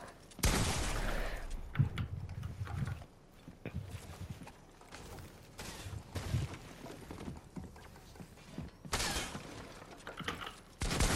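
Gunfire in a box-fight shooter video game: several sharp bursts of shots over constant busy game noise, loud throughout.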